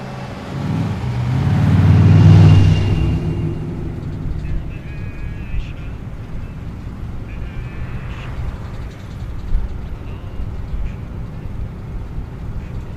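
A car drives with a low engine drone and road rumble that swells briefly near the start, then settles into a constant, even hum.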